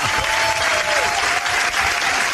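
Audience applause: loud, dense, steady clapping from a crowd, filling the whole clip without a break.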